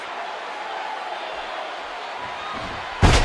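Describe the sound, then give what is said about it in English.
A wrestler's power slam onto the mat during a wrestling match: one sharp, loud impact near the end over a steady crowd roar. “Oh, another power slam.”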